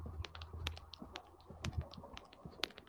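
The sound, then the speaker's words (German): Keystrokes of typing on a computer keyboard come through a microphone during an online meeting. The taps are faint and irregular, scattered in quick uneven bursts with no talk over them. “ich höre Schreibmaschinengetippe”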